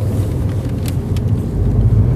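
Steady low road rumble of a car driving, heard from inside the vehicle, continuous and fairly loud with no talk.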